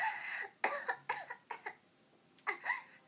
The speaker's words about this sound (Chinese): 没事，呛到了。